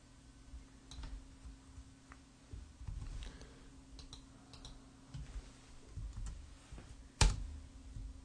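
Soft computer keyboard typing and clicking while text is cut and pasted: sparse, faint keystrokes and clicks scattered over a quiet background, with one sharper, louder click near the end.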